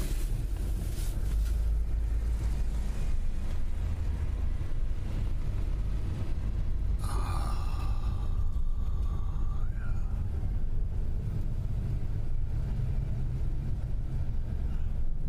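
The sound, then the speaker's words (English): A manual-transmission car drives along with a low, steady engine rumble that stays even throughout, and a brief higher whine rises over it in the middle. “So, clutch. Shift, gas, drive.”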